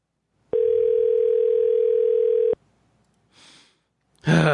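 A phone's ringback tone sounds while a call is placed back: a steady mid-pitched electronic tone holds for about two seconds, then stops. It is followed by a brief faint noise and a sudden louder burst at the end.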